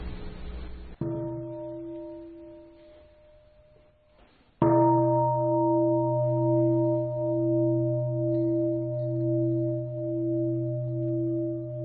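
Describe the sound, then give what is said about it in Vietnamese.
Meditation bell struck before sitting meditation at a Buddhist sutra study session: a fainter earlier ring, then a sharp strike that blooms into a long, steady, low ringing tone with slow, regular pulsing beats, with no voices. “là tôi thỉnh ba tiếng chuông và chúng ta sẽ tọa thiền 5 phút.”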